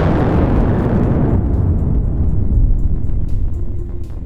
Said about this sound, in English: The name of the origin of this sound was Krakatoa.